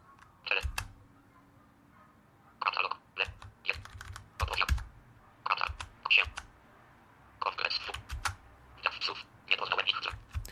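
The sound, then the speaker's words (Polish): Computer keyboard keys, including left and right arrows and K, pressed in short clustered bursts of clicks separated by pauses, fairly quiet throughout. “Idę na początek, żeby się przenieść do końca, naciskam te lewy, prawy i K.”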